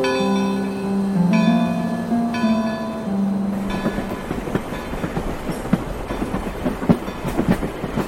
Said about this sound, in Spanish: Ha de ser un tren fantasma. Supongo que no tiene miedo. No, bueno. Subamos, así le sigo contando.